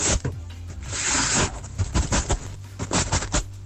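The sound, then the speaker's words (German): A guinea pig that has just given birth arranges its nest at night, making dry rustling and scratching: one longer rustle, then several short, quick scuffs and patters. “Hannes hat dazu geschrieben, ihr Meerschweinchen hat heute Kinder bekommen und das Nest zurechtgemacht, mitten in der Nacht.”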